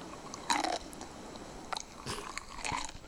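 A crunchy bite of food followed by chewing: one loud crisp crunch, then a few fainter crunches and moist chewing sounds at irregular intervals, all quiet overall.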